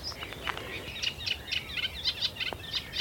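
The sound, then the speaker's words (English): A reed warbler sings in the marshes of Avalon in Somerset, giving faint, high, rapid chattering notes repeated in quick bursts over a soft, steady background hiss. “There's a reed warbler singing ahead.”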